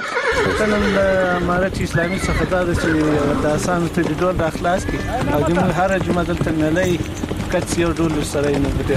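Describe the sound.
A horse neighs and whinnies, brought by a rider to a Sang game in a village of Qarabagh district, Ghazni; people talk loudly over it throughout amid busy outdoor noise.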